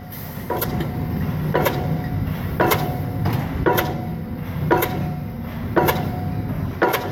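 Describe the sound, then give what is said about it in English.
A hydraulic hammer drives a 60–70 foot metal pipe into the ground at a building site, striking seven evenly spaced, sharp metallic knocks over a steady engine rumble. “That's the sound of a hammer, a hydraulic hammer, knocking that long pipe of metal into the ground.”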